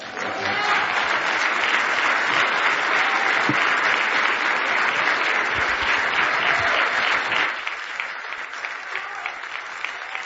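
A church audience applauds a guest preacher with sustained, dense clapping that holds steady for several seconds, then drops to a softer, thinner patter toward the end.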